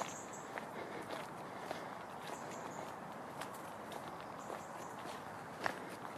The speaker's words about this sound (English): Walking down a little path now, I'm going over to my tree friend.